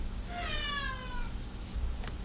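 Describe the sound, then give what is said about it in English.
A cat gives a single drawn-out meow that falls slightly in pitch. It is faint over a steady low background rumble. “Fucking cat! Shut up!”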